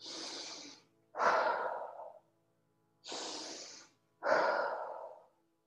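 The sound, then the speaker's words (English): Slow guided meditation breathing, drawn in through the nose and let out through the mouth. Two full breath cycles each pair a soft airy inhale with a fuller, louder exhale, separated by short quiet pauses. “Let that breath flow in through that nose. Let it draw out through that mouth.”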